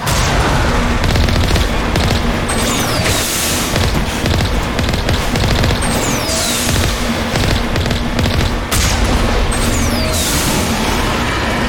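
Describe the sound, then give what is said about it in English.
Video game gunfire blasting at tentacles, a relentless barrage of rapid shots and booming impacts with a few brief falling whistles cutting through the dense, loud din. “Okay, we shot enough tentacles to get it back up over the surface.”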